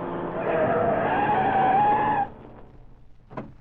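Tires shriek as a car is forced off the road and skids to a stop. A loud, steady screech lasts about two seconds over engine rumble, then cuts off abruptly, leaving a few faint, scattered knocks.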